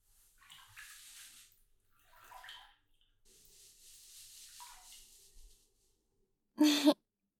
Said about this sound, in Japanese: お背中を流しに来ましたよ。